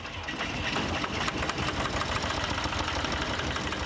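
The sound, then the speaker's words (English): A generator engine runs with a steady, loud, rough rumble and a fine, even knocking texture throughout, alone and without pauses, after being coaxed into starting at a market in Baghdad. “Finally, after considerable tinkering, the generator turns over.”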